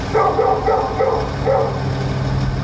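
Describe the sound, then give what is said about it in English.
A neighbour's dog barks in a few short, loud bursts spaced about half a second apart, over a steady low rumble that continues after the barking stops. “The next thing you add on top of that is the neighbour's dog.”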